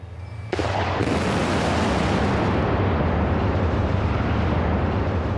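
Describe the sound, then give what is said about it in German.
A demolition blast brings down an old valley bridge, starting as a sudden, loud explosion and then carrying on as a steady, broad roaring rumble. “Die alte Talbrücke wurde gesprengt. 3, 2, 1, Zündung!”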